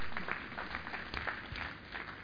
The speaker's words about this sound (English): Give yourselves a clap offering. Hallelujah.